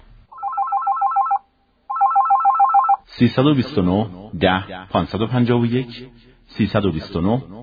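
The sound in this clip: A telephone rings in two electronic bursts for a listener calling in to a history question radio program, then a caller from Shiraz starts speaking over the line.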